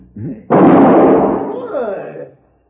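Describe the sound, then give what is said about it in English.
A single loud gunshot knocks a gun from a man's hand. A sharp burst is followed by a long rumbling decay, with brief vocal sounds just before it and near its end. “You just shot the gun from my hand.”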